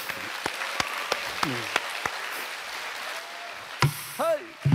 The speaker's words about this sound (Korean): 이럴때박수한번쳐주십시오